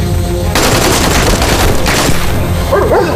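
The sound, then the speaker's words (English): Soldiers opening fire unleash loud, dense gunfire, a rattling fusillade that surges in sustained bursts with heavy booming weight, without a pause across the whole stretch. “Yes, sir. Open fire. Do it down there! Do it down there! Shoot him! Shoot him! Get rid of them.”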